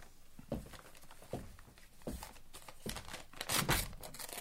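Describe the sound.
A paper telegram is torn open and unfolded, with faint rips, crinkles and rustles in irregular bursts that grow busier toward the end.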